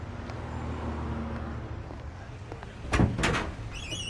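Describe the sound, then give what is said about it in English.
A car trunk being opened gives a short clunk and thud of the latch and lid over steady low road traffic noise. “Yeah, here. Open the trunk. Let me show you.”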